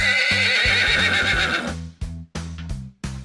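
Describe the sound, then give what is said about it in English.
A horse neighs with one loud, quavering high whinny, followed by a few short breathy bursts, alone without talk. “Horse.”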